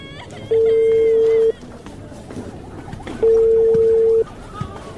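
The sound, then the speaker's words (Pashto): A telephone rings out on a call to father: two long, steady single-pitch tones, each about a second, separated by a pause, over low background noise. “ته صبر چې پلار ته مې زنګ ووهم او زیر پی وکم.”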